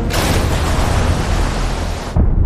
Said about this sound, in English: After just 1 minute, SCAMP's crew hears the first torpedo explode.